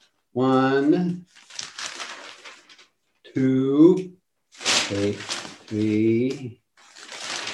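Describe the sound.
Newspaper pages rustling and crinkling as a city's local paper is handled, with a few noisy bursts of crackle alternating with a voice speaking.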